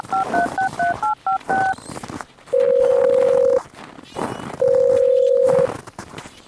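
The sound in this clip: Telephone keypad dialing: a quick run of several short electronic beeps, followed by two long, steady ringing tones.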